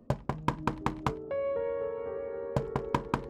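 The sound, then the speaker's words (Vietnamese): Knocking on a bathroom door at midnight: a few sharp, evenly spaced knocks, then a sustained eerie tone, then another run of quick knocks. “Đang ngồi bên trong thì cánh cửa nhà vệ sinh có tiếng gõ vang lên.”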